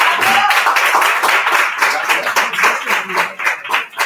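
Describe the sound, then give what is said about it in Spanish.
Audience applause at a live comedy show with a crowd: dense, steady clapping from many hands fills the whole stretch, swelling and dipping slightly, with no talk over it. “Un aplauso para Toño.”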